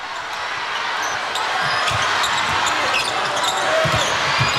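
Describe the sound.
A basketball being dribbled on the court during a Czech Republic versus China game, with several dull bounces under a loud, continuous roar of crowd noise.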